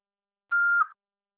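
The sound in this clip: A single voicemail recording beep, a short steady mid-pitched electronic tone of about half a second that ends cleanly, alone in silence.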